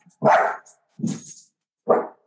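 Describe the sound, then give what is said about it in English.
Three loud barks from a dog, evenly spaced and sharp, with silence between them and no talking. “Sorry about the dog.”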